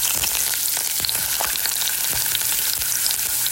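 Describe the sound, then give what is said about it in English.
Thin potato slices fry to a crisp in hot oil, giving a steady, dense sizzle scattered with small crackles and pops. The sizzle stays loud and even throughout, with no voices. “He tossed them into the oil and fried them to a crisp.”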